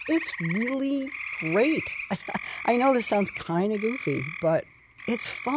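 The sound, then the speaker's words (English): Tree frogs call on a summer night in a steady, high, trilling chorus that runs throughout, while a person talks over it. “And then the tree frogs, you're probably also familiar with. That's the sound of the summer night,”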